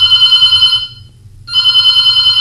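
A telephone rings with an incoming call: two loud electronic ring bursts, each buzzing and trilling, separated by a short silent pause.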